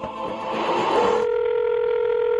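Telephone tones play as a number is dialed: a noisy, hissing stretch changes into a steady, clear tone that holds to the end.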